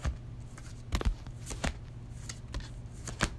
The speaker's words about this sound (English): 10 more cards. Deal them out